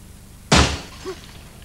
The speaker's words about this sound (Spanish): Ana y el chico corren a la puerta y ven el cristal partido.